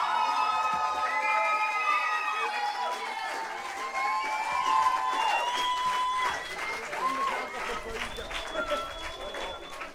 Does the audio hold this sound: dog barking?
no